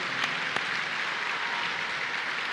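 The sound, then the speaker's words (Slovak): A church audience claps together in steady, dense applause that holds at an even level throughout, with no voices standing out. “Zatleskajme Pánovi.”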